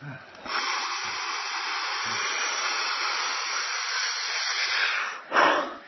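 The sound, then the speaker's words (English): A long, steady inhale of breath, shown during a breathing demonstration, comes through as a smooth airy hiss lasting about five seconds. A brief, louder puff of air follows at the end. “So the exhale is just over. I take a long inhale.”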